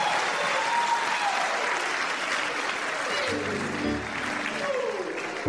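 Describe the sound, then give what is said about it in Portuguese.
Audience applause at a religious gathering, dense and steady clapping that carries on throughout with faint voices mixed in underneath. “Put your hands together for Jesus. Uma salva de palmas para Jesus.”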